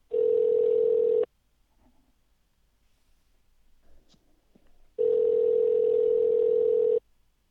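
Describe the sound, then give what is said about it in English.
A telephone dial tone sounds twice: a loud, steady, unwavering hum for about a second, then a quiet stretch with faint rustling, then the same tone again for about two seconds. “Oh, I have my dial tone ready.”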